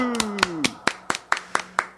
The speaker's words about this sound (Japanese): 拍手